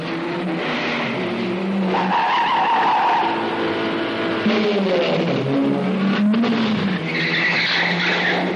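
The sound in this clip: A car speeds through a compound during a chase, its engine roaring continuously while tires squeal and skid repeatedly, loud throughout with no voices.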